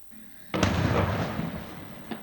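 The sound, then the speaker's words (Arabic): Israeli shelling in south Lebanon: one loud blast strikes and then fades into a long rumbling decay, and a fainter thump follows near the end. “من جديد، الجنوب اللبناني تحت النار، قصف إسرائيلي يطال حول ووادي سلوق وحاريس”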